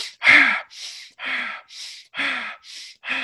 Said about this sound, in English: The way that I think is most powerful is to do super oxygenated breathing. So this would involve doing 20 or 30 breaths quickly,